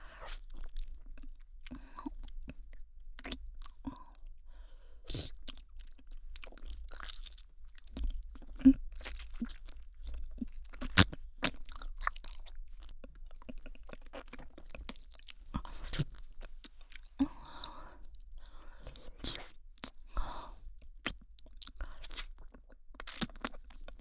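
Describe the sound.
Crunchy chewing and biting go on steadily, with many crisp, moist crunches in an irregular rhythm, close and alone, no voices.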